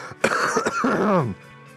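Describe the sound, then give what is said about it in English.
A deliberate cough, a rough, throaty burst of about a second with a raspy, voiced quality, then fading to quiet. “I'm going to cough now. I swear it is not purely for dramatic effect.”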